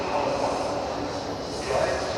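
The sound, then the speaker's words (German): The ambience of Frankfurt main station: a steady, dense wash of noise and indistinct murmur with no single sound standing out. “Aber wie ihr vielleicht hören könnt, bin ich gerade am Frankfurter Hauptbahnhof. Kapitän Jansen, der muss hier gleich mit der Bahn ankommen. Ja, mit dem Zug.”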